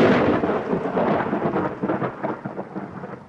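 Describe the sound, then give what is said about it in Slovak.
Thunder rolls through a rainstorm, heavy and loud at first, then breaking into gradually fading rumbles over a continuous hiss of rain, with no voices. “Čo to bolo? Búrka.”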